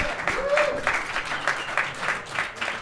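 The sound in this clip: A live audience applauds and cheers as a guest from Scotland is introduced. The clapping is moderately loud and comes in uneven surges, with a brief voice-like cry early on.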